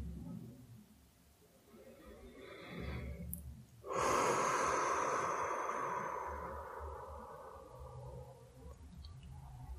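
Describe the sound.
A deep inhalation during a guided breathing and relaxation exercise: a long breathy rush that swells in suddenly, then slowly fades over several seconds above a soft low background.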